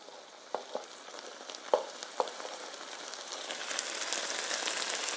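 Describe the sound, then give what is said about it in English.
Eggs and vegetables frying together in one pan for fried rice: a soft, steady sizzle with a few sharp crackles and pops early on, the hiss growing slightly fuller toward the end, faint overall with no talking. “The sounds of cooking. It's a symphony. There's a symphony in here.”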